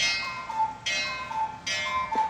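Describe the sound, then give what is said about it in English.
A cuckoo clock in a home: a few bright, sharp clicking bursts stand out over a thin, steady high tone, with a softer ticking texture between them and no voices. “Is that a cuckoo clock? That was the cuckoo clock.”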